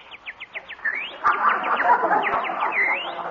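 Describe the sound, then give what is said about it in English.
Small bird singing: a quick run of short, high, descending chirps followed by rising whistled sweeps, repeated, with a busier noisy texture underneath in the second half. “listen to that little birdie singing”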